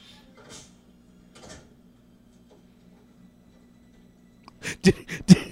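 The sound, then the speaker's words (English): A door in a video game is wiggled and rattled to lock it. Near-quiet with faint scrapes gives way at the end to a few sharp, loud clicks and rattles in quick succession. “Did he just wiggle the door to make it lock?”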